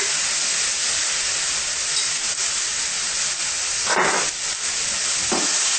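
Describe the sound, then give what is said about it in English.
Pine nuts roasting on low heat in an electric cooker: a steady, loud sizzling hiss that runs throughout, with a few louder scraping bursts near the end as the mixture is stirred. “Stir it up, stir it well. The pine nuts will also be roasted in here.”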